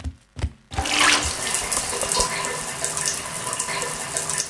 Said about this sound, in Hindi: अच्छा तो ये श्रीमान नल खुला छोड़कर कहीं चले गए